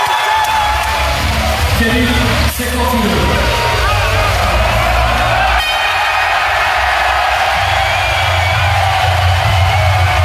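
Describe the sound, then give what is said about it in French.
A basketball crowd roars and cheers as JL Bourg wins the European championship 73-71 and fans invade the court, with loud, sustained whoops and shouting and a steady bed of crowd noise. “La JL Bourg est championne d'Europe. La libération, la consécration. Les joueurs s'effondrent, s'embrassent, le public envahit même le parquet.”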